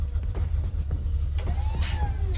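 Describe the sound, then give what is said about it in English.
A car pulls into a driveway with a steady low engine rumble throughout. A brief high squeak comes near the end, all fairly quiet. “Who's that in my driveway? That's my ride.”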